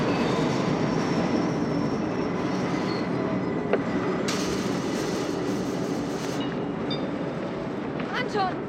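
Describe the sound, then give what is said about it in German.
A Eurocity train from Hamburg pulls into Berlin Ostbahnhof station with a loud, steady rolling rumble, while piercing wheel screeches rise over it through the middle and at the end. “Sie werden es schon an dem ohrenbetäubenden Quietschen erkannt haben, es fährt ein der Eurocity aus Hamburg.”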